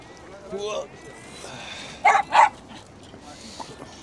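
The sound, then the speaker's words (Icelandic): A dog gives two quick, sharp yips in close succession, loud against a quiet background, with people talking before and after. “Hundur. Þetta er skrýtin hund. Þetta er hundur.”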